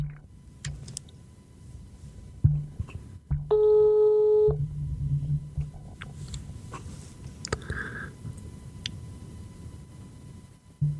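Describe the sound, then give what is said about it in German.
A single telephone call tone sounds for about a second midway through placing a call, a steady pitched beep over a low background hum with faint scattered clicks. “Ich rufe ihn mal an und dann hören wir mal, was so passiert.”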